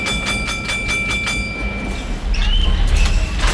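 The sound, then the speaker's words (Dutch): Tram on line 44 from Brussels to Tervuren, recorded in 1997, rumbling steadily with a thin high whine. The noise grows louder toward the end as a squealing tone rises above the rolling clatter. “En toen nam ik ook het trammetje 44 van Brussel naar Tervuren. Maakte daartoe deze opname.”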